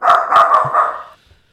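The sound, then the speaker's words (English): A small dog barks in a quick, agitated burst of a few sharp, loud barks, then goes quiet, with no talking. “He is going nuts right now. It's Gizmo. That's the dog's name, by the way.”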